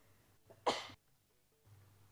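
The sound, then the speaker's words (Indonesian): One sharp cough bursts out loud and short against a quiet background, with a faint breathy sound just before it and near silence afterward. “Mohon maaf, terbatuk-batuk ini.”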